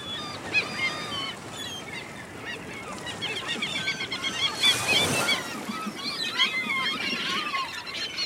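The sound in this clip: Seagulls crying as they circle over the sea on a sunny day with waves: many harsh, overlapping calls over a constant rushing background, with a louder swell of noise around the middle.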